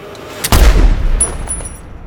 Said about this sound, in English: The gunman aims his weapon and fires past her, then runs.